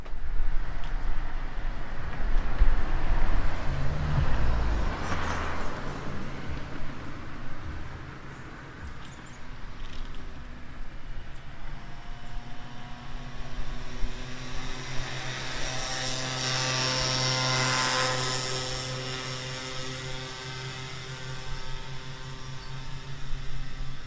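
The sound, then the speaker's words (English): Vehicles go by in a couple of slow swells of engine noise, a low rumble building and fading early on, then a louder pass with a steady droning engine tone that lingers before trailing off. “I put an order in for those vehicles to go by.”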